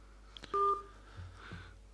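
A telephone call connecting: a single short keypad tone sounds as the line opens, with faint low hum and soft clicks around it.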